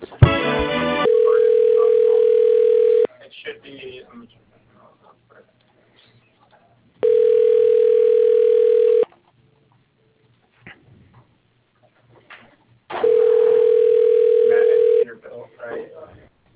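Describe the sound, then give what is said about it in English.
Telephone line tones play while a call is transferred to voicemail: three long, steady electronic tones of equal length, separated by pauses with faint voices and clicks. “if you could put me through to that voicemail, that'd be great”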